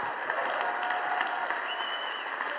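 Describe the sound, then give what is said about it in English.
Dense, steady applause from a standing audience at a church worship service, continuous and even in loudness from start to finish with no pauses. “Stay standing, because I'm tricking you into doing a standing ovation.”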